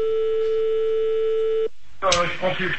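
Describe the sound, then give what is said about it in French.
A steady telephone line tone sounds while a caller is being called back. It holds one even pitch for about a second and a half, then cuts off abruptly into a short silence before a voice starts speaking. “On rappelle Sandy pour lui dire au revoir quand même.”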